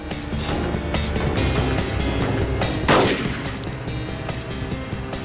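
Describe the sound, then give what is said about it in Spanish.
Gunshots from a suspect firing many bullets: a fast, dense string of sharp cracks with a heavier, louder burst partway through. “El sospechoso desaparece en el área industrial. Disparó 32 balas. Una de ellas hirió a un transeúnte.”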